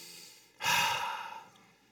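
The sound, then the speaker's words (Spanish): A single deep breath taken during a sermon: a breathy rush of air that swells suddenly, holds, then trails off over about a second, heard alone without talk. “Respira profundo conmigo.”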